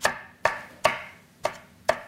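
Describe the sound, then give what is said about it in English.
A knife rough-chops shiitake mushrooms on a board, making five crisp, sharp chops at slightly uneven intervals with no talking. “Rough chop on the mushroom.”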